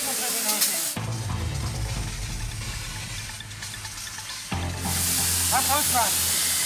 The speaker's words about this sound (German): Wir müssen jetzt erstmal hier massiv Wasser draufhalten.